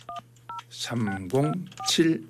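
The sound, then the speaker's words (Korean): Telephone keypad tones sound as a number is dialed: a few short, clean beeps, with a person talking between and over them. “자, 어떤 방학생들을 하나님께서 만나게 해주실지 예 한번 전화를 한번 걸어보겠습니다.”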